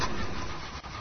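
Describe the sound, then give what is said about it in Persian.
A car engine cranking but failing to start, a continuous rough whirring drone with a brief dip near the end and no catch into running. “وای سانتر پیدا شد. داداش از صرف کلاجشه، متوجه ای؟ آقا استارت نمی کنه.”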